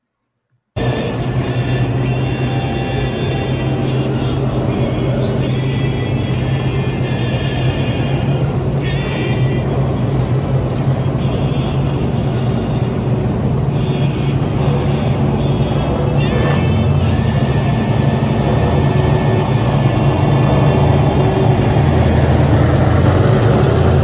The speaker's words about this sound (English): Ain't nothing like a little short track racing.